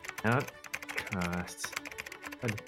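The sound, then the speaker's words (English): Typing on a computer keyboard, a patter of key clicks running under a voice that talks throughout. “All right, I'm going to type here,”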